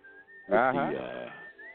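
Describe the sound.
Whistled music plays as a thin, steady melodic line. A voice breaks over it in the middle, and then the whistling carries on alone with a slight upward glide at the end.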